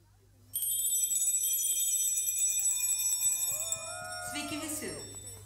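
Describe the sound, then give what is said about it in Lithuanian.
A school bell rings for the start of a lesson, a continuous bright, high-pitched electric ring lasting several seconds, with voices rising beneath it in the later part. “Skambutis šiandien mus sukvietė tam, kad pradėtume pamoką”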